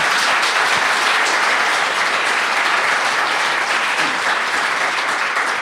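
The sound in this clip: Audience applause rings out as guests are welcomed, a loud, continuous wash of many hands clapping that stays at an even level throughout.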